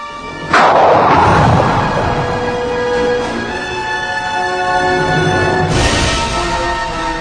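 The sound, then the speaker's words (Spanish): A light gas gun fires a pellet at about 10 km per second into a target representing Earth in an evacuated room: a sudden loud blast, then a sustained roar with ringing tones and a second surge near the end. “Se prepara un blanco que representa la Tierra y se evacúa la habitación. Se procede a disparar el cañón.”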